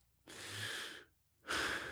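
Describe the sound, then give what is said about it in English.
A man takes a deep breath after a fall, heard as two long, airy rushes of breath separated by a short pause. Both are faint and heard alone. “Daddy, take a deep breath.”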